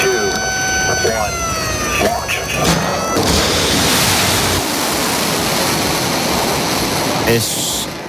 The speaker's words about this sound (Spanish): Es un sonido de un Tomahawk.